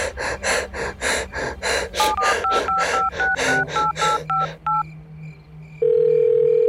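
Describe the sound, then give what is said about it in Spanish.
A telephone number is dialed during a panicked emergency call: a rapid run of many keypad tones, preceded by heavy, gasping breaths, then a steady telephone tone that continues alone to the end. “¡Le voy a marcar a Annie! ¡Necesito que traiga ayuda!”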